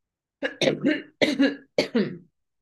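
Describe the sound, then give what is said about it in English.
A person coughs after choking on their own breath, giving a few harsh coughs in three quick clusters, fairly loud and alone. “I've just choked on my own breath in a sec.”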